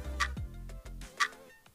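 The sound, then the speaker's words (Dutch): Clock ticking to start a timed countdown: two crisp, bright ticks about a second apart over a low, humming tonal bed, with no speech. “In maximaal 100 seconden, start de klok.”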